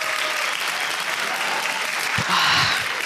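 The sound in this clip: Studio audience applause for a comedian, with steady clapping throughout that swells briefly near the end while a voice cuts in over it.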